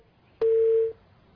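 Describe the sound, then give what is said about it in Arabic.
An electronic telephone tone signals an incoming call: one steady, mid-pitched beep lasting about half a second, clear and alone against near silence. “عفوا اتصال”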